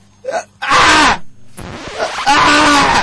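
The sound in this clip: A man's voice imitates another man screaming during sex, giving a brief cry and then two long, loud, strained wailing moans that rise and fall.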